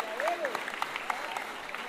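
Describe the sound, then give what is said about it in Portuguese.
A crowd claps for a sponsor who funded songbooks for a samba gathering: dense, steady clapping over the whole short stretch, with voices and a brief tonal call mixed in. “eu queria até pedir uma salva de palmas a ele.”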